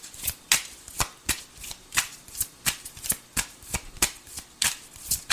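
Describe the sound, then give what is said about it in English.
Tarot cards are shuffled in a steady rhythm of many sharp riffling snaps, each a quick papery burst, repeating about twice a second. “May I have some more cards, please? Something's trying to jump out. Let's see what happens here. May I have some more cards, please, to clarify Gemini's situation?”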